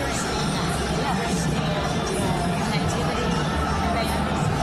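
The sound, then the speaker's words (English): A talk-show studio audience murmurs and chatters excitedly as George W. Bush appears on screen, giving a steady, dense babble of many voices with no single voice standing out. “Here it comes. This audience full of, like, liberal wine moms. They're all so excited.”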